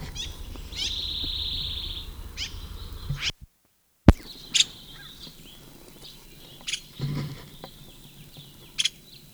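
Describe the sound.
Bird call of the sycamore bird: a thin, high whistled note early on, then after a brief silence a few sharp, faint clicks and taps over a quiet background.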